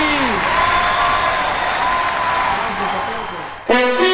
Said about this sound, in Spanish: Applauso para Lani. Aplausos,